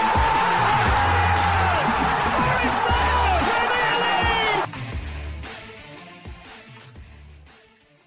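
A football crowd at the City Ground, Nottingham, erupts in a loud, sustained roar of cheering for a Nottingham Forest goal, with a commentator shouting over it, then the noise drops sharply and fades away.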